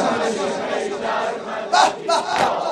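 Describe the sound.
A crowd at a chest-beating mourning ceremony fills the air with a dense, loud chorus of massed voices, swelling in a few stronger surges near the end.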